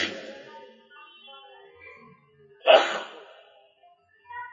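A single sharp sneeze bursts out after a quiet, breathy stretch, brief and explosive, then fades back to near silence.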